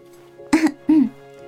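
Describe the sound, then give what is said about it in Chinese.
Two light, deliberately faked coughs, short and throaty, one quickly following the other over a faint steady hum. “季彤假装轻咳了两声，故意解围。”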